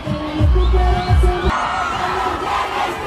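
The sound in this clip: A concert crowd sings together in the streets of Madrid during an outdoor performance, a loud, dense mass of voices that holds steady throughout.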